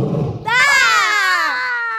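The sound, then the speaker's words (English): A loud, wild, blood-curdling roar from a desperately hungry animal bursts in after a brief murmur, a sustained high, shrill wail lasting over a second whose pitch sags slightly toward the end. “What was that? That was a wild and desperately hungry, blood-curdling roar.”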